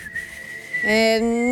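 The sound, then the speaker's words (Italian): A person whistles the opening melody of a rock ballad's intro, a clear, high whistled note held steadily before a fuller tone takes over. “Ma lo sai fischiare l'intro tu? Aspetta, dai.”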